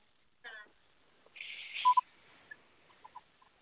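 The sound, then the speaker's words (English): Telephone dialing tones sound as a call is connected: a few short, quiet beeps scattered among faint clicks and noise. “But what I am going to do is connect this caller.”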